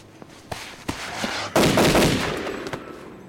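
Rifle gunshots: a few sharp bangs, one much louder than the rest, followed by a long, rumbling decay.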